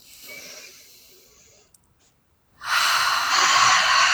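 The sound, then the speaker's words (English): A deep breath taken during a tapping exercise: a soft, breathy rush, a short pause, then a loud, steady, airy rush that lasts to the end. “Okay, take a deep breath.”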